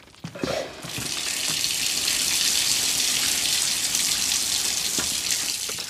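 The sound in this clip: Running tap water as hands are wetted before shaping dough into filled balls. A brief splash leads into a steady, loud gush that holds for several seconds with no voices.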